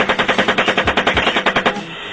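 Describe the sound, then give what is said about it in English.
Gunfire from a military helicopter, heard from a video recording of a shooting in a public square in eastern Baghdad: one rapid, evenly spaced burst of many loud shots that stops abruptly near the end. “After the initial shooting, an unarmed group of adults and children in a minivan arrived on the scene and attempted to transport the wounded. The van was fired upon as well.”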